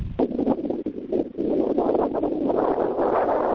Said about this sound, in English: It's a noise that sounds like someone blowing into their microphone. Everybody hearing that? It sounds like wind. There's wind where I'm at.